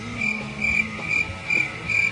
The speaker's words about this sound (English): You hear that sound, folks? That's the sound of crickets.